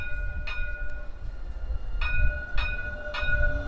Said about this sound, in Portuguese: Esse é o VLT, ele anda sobre trilhos que cortam pelo centro antigo do Rio e os prédios históricos do entorno.